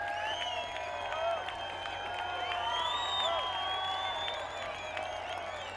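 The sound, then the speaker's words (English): An audience at a concert hollers, whoops and whistles for an encore, urging the band to play another song. The cheering is loud and continuous, with shrill whistles rising over a steady roar of applause and voices. “But y'all holler enough, they might come play another one. I don't know, but you're going to have to hoop it up.”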